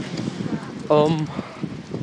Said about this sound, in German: außerdem laufe ich jetzt gerade den gleichen Weg, bloß laufe ich jetzt zum Döner.